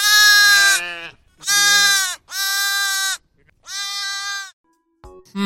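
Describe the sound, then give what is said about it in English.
Little lambs bleating in springtime: four loud, quavering bleats with gaps between them, followed by a couple of brief, clipped fragments at the end. “That was the sound of lambs. Oh, yes, it was the sound of little lambs bleating away.”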